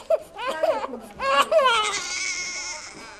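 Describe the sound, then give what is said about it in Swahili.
Newborn baby crying in a few short, tremulous wails that rise and fall, then break into a longer, strained and sustained cry, loud and alone. “Kilio hiki huleta nuru pale tu mama anapojifungua akijua kuwa mwanae yu hai.”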